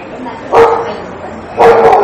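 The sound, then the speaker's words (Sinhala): A dog barks outside, two short, loud barks spaced about a second apart over a low, steady background. “දැන් ඔය සද්දය ඇහෙනකොට එළිය බල්ලෙක් ගොනවා කියන්නේ”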